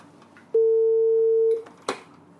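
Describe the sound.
A telephone line tone while calling someone back: one steady, mid-pitched beep lasting about a second, then a brief click-like noise shortly after.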